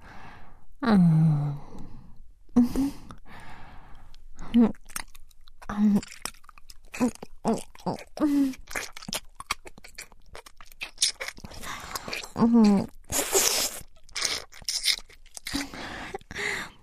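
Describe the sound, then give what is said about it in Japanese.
Light biting with the teeth, with soft clicking mouth and chewing-like sounds scattered throughout, mixed with breathy sighs and short voiced gasps. “ほら、今は軽くだけど、もっと強く歯を立てて噛むわよ。”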